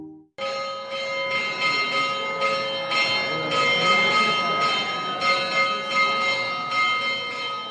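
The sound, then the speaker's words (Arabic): Church bells ring out for a Maronite church feast, many overlapping metallic strikes sounding in quick succession, bright and resonant, with a ringing hum that sustains between blows throughout. “على صوت قرع الأجراس احتفلت الكنيسة المارونية في العالم وفي استراليا بعيد أبي الطائفة المارونية القديس مار مارون”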